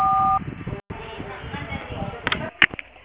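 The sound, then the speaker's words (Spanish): A short, steady electronic answering machine beep opens, lasting under half a second, followed by a voice speaking over a thin telephone line. “deje su mensaje después de la señal.”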